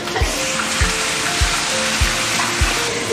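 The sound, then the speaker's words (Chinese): Food dry-frying in a pan over a wood-fired stove: a steady sizzle runs throughout, with five evenly spaced low knocks, as from stirring against the pan. “先干煸，”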